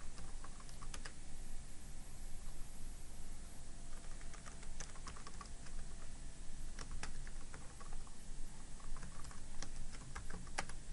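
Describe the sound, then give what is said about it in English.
Rapid, irregular clicking of a computer keyboard as an Azure command is typed, many light keystrokes in bursts over a faint steady hum, with no talking. “So first let me get the list of storage accounts that I have in my account. And from here, now I'm going to use my AUX Preview 42 account. So I'll go ahead and type set Azure subscription”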